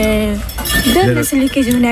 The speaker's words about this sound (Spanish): A ver, aquí están limpiando los platos. Sí, buenos días. Limpiáis a mano, no hay lavaplatos aquí, ¿eh?